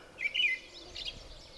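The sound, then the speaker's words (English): An American robin singing at the edge of a bog gives a short burst of high warbled notes early on, then fainter notes over a low, steady background hiss. “Yeah, the robin that you see on your lawn. This one's out at the edge of a bog.”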